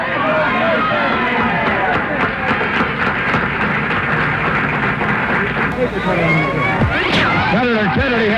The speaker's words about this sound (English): Senator Kennedy has been shot. Is that possible? Is that possible? It could. Is it possible, ladies and gentlemen? It is possible. He has.